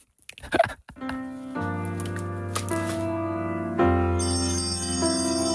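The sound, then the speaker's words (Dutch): A small altar bell rung during a Catholic Mass gives a shimmering, sustained metallic ring. A few brief rattling clicks come first, and a fresh strike near the end brightens the tone. “Maar dit was het belletje tijdens de mis, wilde je horen?”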